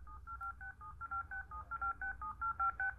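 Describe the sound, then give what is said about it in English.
Faint telephone keypad tones sound from repeatedly pressing the yes key on a VoiceMate dialing device, a long run of short dual-tone beeps in a quick, steady rhythm at constant pitch. “I'm going to press the yes key again. Very faint. I'm going to keep pressing it until it gets loud enough.”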